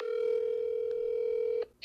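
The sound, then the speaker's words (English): Telephone dial tone while a call is being placed: a steady, loud, unbroken tone that holds for over a second and a half, then cuts off abruptly, followed by a brief faint sound. “I'm going to call him back right now.”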